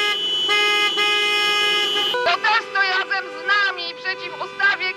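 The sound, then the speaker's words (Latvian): Car horns honking in the central streets of Warsaw during a protest against a bill to ban abortion: one long sustained horn blast gives way to many shorter, overlapping honks of varied pitch, loud and continuous throughout. “Automašīnu pīpināšana pagājušajā nedēļā pieskandināja Polijas galvaspilsētas Varšavas centrālās ielas.”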